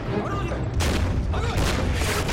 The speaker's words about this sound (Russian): Выстрел пушек из-под леса.